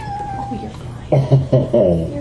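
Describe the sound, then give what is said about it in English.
Cat meowing in protest: a quick run of four short, loud, complaining meows. “He's purring. That's why I laugh at his little protest.”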